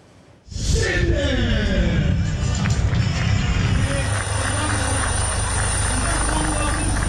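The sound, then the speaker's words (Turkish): Military aircraft roar through demonstration flights at an Air Force anniversary festival, a loud engine rush that surges in abruptly and holds steady, with sweeping tones shifting through the noise. “Uçaklar ve helikopterler gösteri uçuşları da yaptı.”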